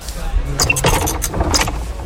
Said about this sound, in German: Das Geräusch ist ein fest installierter Weinflaschenentkorker.